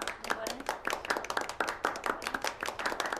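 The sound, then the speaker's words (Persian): Many claps ring out from wedding guests applauding the bride's brother, a brisk and fairly steady rhythm of sharp hand claps. “دست دست به افتخار خودتون، دست بزنیم به افتخار برادر عروس.”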